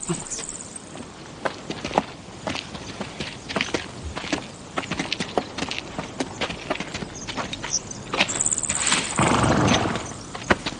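Horse hooves clip-clopping as a horse-drawn carriage moves off: many irregular hard, woody knocks in a steady walking rhythm, with a brief louder rushing swell near the end and no talk.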